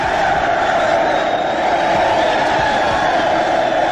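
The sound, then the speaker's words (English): A crowd gives a loud ovation, cheering and whooping without a break. The dense roar of many voices holds steady at full strength from start to finish. “Do you pay those folks? I mean, that's an amazing ovation. You get every you bring them with you, don't you?”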